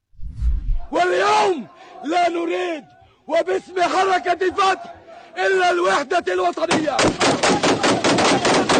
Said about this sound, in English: And they're firing guns in the air.